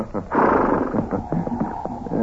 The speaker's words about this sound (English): Hey, what's the matter with that horse? He's gone loco. That old mare threw her in that snowbank.